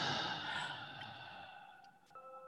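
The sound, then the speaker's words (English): One deep, drawn-out breath, a faint airy rush that starts strong and slowly tapers away, with a few soft steady tones lingering quietly underneath toward the end. “So allow yourself to take a couple of deep breaths. Inhale and exhale.”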